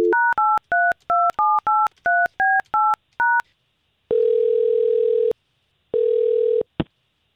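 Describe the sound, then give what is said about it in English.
Keypad tones of a telephone dialing to place a call: a quick, evenly paced run of short two-note beeps, then two long steady ringing tones with a pause between, ending in a brief click. “let's go ahead and see if we can get you on another date with Tiffany, or at least us try to get her on the line.”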